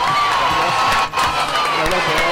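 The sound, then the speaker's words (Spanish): A crowd cheers and applauds with loud shouts and whoops, including children's voices, in a dense, steady roar that dips only briefly partway through. “Un aplauso para él.”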